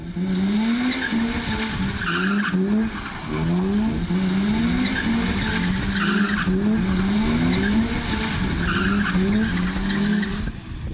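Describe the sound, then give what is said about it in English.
Tyres skid and squeal as a car does diffs and doughnuts. The engine revs rise again and again over a sustained, loud screech, and no voices are heard. “And this is called diffing. Well, diffing and donutting. Now, this wasn't outside your house, but this is what it sounds like.”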